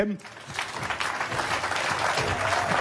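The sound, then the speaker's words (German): Audience clapping at a live concert as guest musicians are welcomed: a dense, steady wash of applause that holds evenly loud throughout, with some voices mixed into the crowd noise. “Ein bisschen klatschen.”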